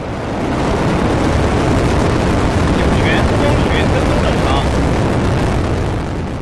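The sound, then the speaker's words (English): A Long March 2F rocket igniting and lifting off beneath a Shenzhou 23 spacecraft: a loud, dense roar rises quickly at the start and holds steady and rumbling to the end. “Then the Long March 2F rocket ignites beneath Shenzhou 23 and lift off.”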